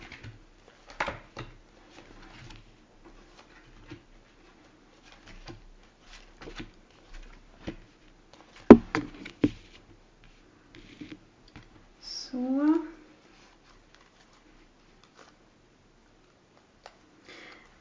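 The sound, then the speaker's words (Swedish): Tarot cards laid out on a table in a Celtic cross spread: many soft, faint taps and light slaps of cards being set down, scattered irregularly across a long, mostly quiet stretch. “då kommer jag lägga ut här ett så kallat keltiskt kors eh, som är massa kort här på bordet då”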